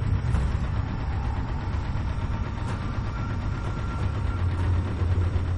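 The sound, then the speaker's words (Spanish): A petrol engine runs with a steady, low, rumbling hum inside a building thought to be abandoned. The tone stays even throughout with no revving or pauses. “Parece un motor de gasolina.”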